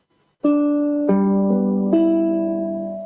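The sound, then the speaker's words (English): Ukulele chords are strummed in high G tuning: four bright strums a short way apart, each ringing on and slowly fading. The tone is crisp and sparkly, heard alone without talk. “Then you've got the high G tuning, which sounds like this.”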